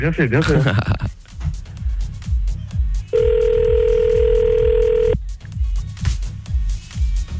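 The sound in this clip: A telephone ringback tone on an outgoing call: one steady, mid-pitched ring lasting about two seconds, with voices before and after it.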